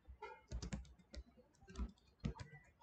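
Code is typed on a computer keyboard, faint clusters of soft key clicks coming in a few uneven bursts with short pauses between them.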